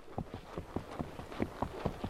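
Horse hooves on a forest trail through pine and oyamel fir, climbing high in the mountains of central Mexico: a steady, even rhythm of many soft, dull thuds at walking pace, fairly faint.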